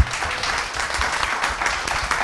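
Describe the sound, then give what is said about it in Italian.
Audience applause at a live show: dense, steady clapping from a crowd that stays fairly loud and even throughout, with no clear voices above it. “Siete stati un bellissimo pubblico. Fatevelo un applauso. Fatevelo.”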